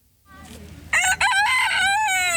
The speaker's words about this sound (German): Ein krähender Hahn